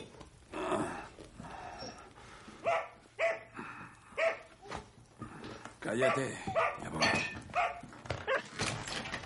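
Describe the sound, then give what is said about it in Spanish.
A dog barks at its owner on a sofa, in a post-apocalyptic zombie thriller, with a voice speaking over it throughout. “Patrick se despierta con los ladridos de su perro.”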